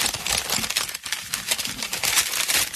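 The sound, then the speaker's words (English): Paper crinkling and rustling as a letter is folded up, with a steady, fairly loud crackle that runs on without pause and has no talking over it. “So you take this letter, fold it up real nice,”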